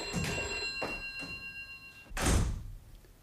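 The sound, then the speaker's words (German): A telephone bell rings in a home with a steady electric ring, followed by a dull knock near the end. “Soll ich rangehen? Lassen Sie nur”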